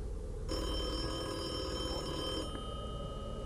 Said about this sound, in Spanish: el teléfono de la casa empezó a sonar con el tono que le asignamos a mi abuela.